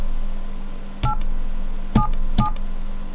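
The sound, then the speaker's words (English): A telephone number is dialed on a keypad: three short touch-tone beeps, the last two close together, sounding over a steady low hum. “Number that. Dial it.”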